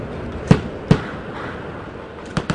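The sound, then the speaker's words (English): Afghan army soldiers' rifles fire randomly during a firefight in a village in Afghanistan. Four sharp cracks come at irregular intervals, two close together early and two more near the end, over steady background noise. “Most of the bullets were coming not from the Taliban, but from Afghan soldiers who showed up and randomly started firing.”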